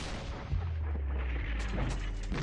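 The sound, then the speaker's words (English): Heavy artillery guns fire in a deep, low rumble. The booms roll together into a continuous, fairly quiet barrage without clearly separate shots. “The big guns, the heavy artillery attempting to punch open the line while suppressing enemy batteries with concentrated fire.”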